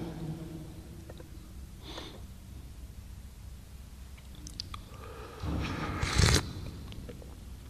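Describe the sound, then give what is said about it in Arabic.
Hot tea is sipped with a short slurping draw near the end, preceded by faint mouth and breath noises in a quiet stretch. “أنا بشرب الشاي لأن أنا عندي عملية في الحبال الصوتية، فأحيانا تجف، فبحاول ألينها”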